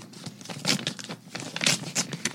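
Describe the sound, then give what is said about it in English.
A paper envelope is picked up and torn open, giving a few bursts of crisp crinkling and ripping paper with short pauses between them. “there are several envelopes in front of us, and we're going to pick one at random. And it's Pete's turn as the guest host, so go for it, Pete.”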